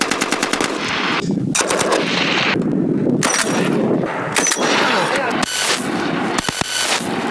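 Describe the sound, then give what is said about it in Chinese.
Sniper rifles, sniper grenade launchers and rifles fire together during a clearing sweep through a mountain valley, a loud, dense stream of rapid shots and bursts with sharp cracks throughout. “狙击枪、狙击榴弹发射器、步枪等多型火器协同实施打击。”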